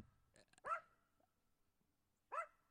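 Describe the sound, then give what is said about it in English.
Dog barking, two short, fairly faint barks separated by a pause of more than a second, with quiet background between them. “I have a dog, everybody.”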